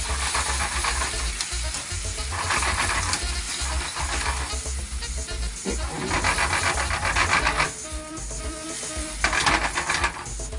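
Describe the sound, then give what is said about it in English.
Tomato paste and tomatoes simmer in a pan over a lowered flame, giving a steady, bright sizzling hiss that runs the whole clip with small swells in level and no talk. “Turn down the fire a little bit, let that simmer.”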